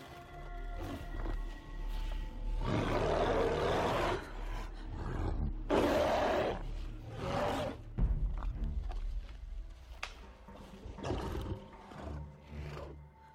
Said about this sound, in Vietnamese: Thú Nhai Tí gầm một tiếng, cuồng phong bất chợt nổi lên.